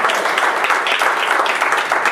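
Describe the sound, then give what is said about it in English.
Church audience applause during an evening service, a loud and continuous wash of many hands clapping with a slightly pulsing texture and no clear speech over it. “Give the Lord a hand of applause tonight.”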